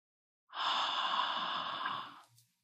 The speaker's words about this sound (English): If you've never practiced Ujjayi breath, you can place your hand in front of your mouth, and as the exhale comes out, imagine that you are making fog on a window.